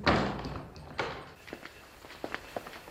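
A church door being opened with a couple of heavy clunking thuds, followed by a run of light, soft footsteps.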